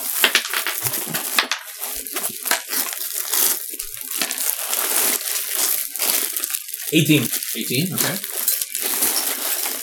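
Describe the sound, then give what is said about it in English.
Dice rattle onto a table during a Dungeons & Dragons game, with many quick clicking knocks under ongoing talk from the players. “I forgot to pull out my dice. This is the only time in the podcast we're allowed to have things hit the table.”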